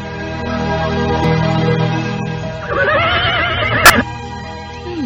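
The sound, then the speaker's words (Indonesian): A horse neighs in one loud, shaking whinny whose pitch falls away at the end, over a steady low background hum. “Kuda siapa ini? Bagus sekali.”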